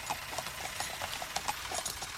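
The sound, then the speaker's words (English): A tractor engine runs near a horse, giving a fairly faint, steady chugging with a rapid, even knocking rhythm and no break. “Well, we're not impressed, are we, young fellow? It's all right. It's only a tractor. Not much room, is there? No, not a lot. Steady, Dancer. Whoa, there. You okay? Can you turn the engine off?”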